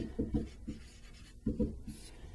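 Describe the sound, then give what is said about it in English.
Writing strokes scratch across a surface as the given values of a related rates math problem are written out, in two short clusters of quick, soft strokes separated by a pause. “Now we did this in the problem already, but I want to write it all out here.”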